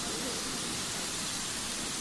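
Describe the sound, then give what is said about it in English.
Water gushes from a big water column into the tender of the Victorian 563 steam locomotive at a railway station. A loud, steady, hissing roar runs through the whole clip. “the 563 locomotive, the Victorian locomotive of the Swanage Railway, is also now having a drink of water from the big water column here at Swanage.”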